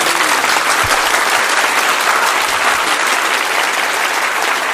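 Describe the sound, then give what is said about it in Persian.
An audience claps along to a devotional song: loud, dense, steady clapping fills the whole stretch, with no voices standing out. “یه کف خوشگل بزن.”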